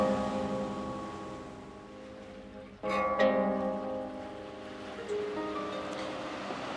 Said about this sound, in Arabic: كنت اتمنى تكون معاي هون تشوف البحر زي ما انا شايفه، وتسمع الموج زي ما انا سامعه.